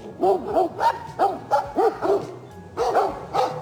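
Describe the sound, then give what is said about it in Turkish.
Stray dogs barking as they fight bears in a national park near Kızılcahamam, Ankara: many sharp, rapid barks and yips in quick succession, with a brief pause before a final burst. “Sokak köpekleri ve ayıların kavgası kameralara işte böyle yansıdı.”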